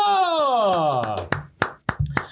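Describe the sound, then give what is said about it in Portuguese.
Three people clapping: several sharp, evenly spaced hand claps ring out after a voice whose pitch slides downward. “Três pessoas bater palma.”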